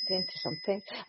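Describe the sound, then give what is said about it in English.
A small hand bell rung at an altar before spirit communication gives a sustained, high, shimmering ring that carries steadily beneath continuous talking. “I tend to bring this bell, and that's just to welcome the spirits in.”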